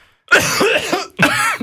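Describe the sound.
Coughing, two harsh bursts in close succession, a longer rough one followed by a shorter one, loud and alone with no talk over it.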